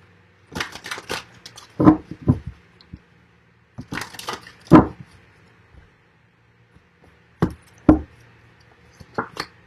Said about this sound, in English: I'm going to draw one card as the focal point from the Earth Magic deck by Stephen Farmer.